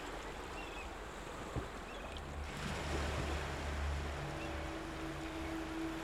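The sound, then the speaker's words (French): Ocean waves wash gently onto sand in a soft, continuous hiss of surf that stays quiet and even throughout, with no voices. “le doux murmure des vagues, ressentir la fraîcheur de l'eau qui vient s'échouer doucement sur le sable.”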